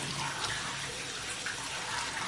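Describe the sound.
Running tap water at a sink as a woman washes her hands, a steady splashing hiss that holds even throughout with no talk.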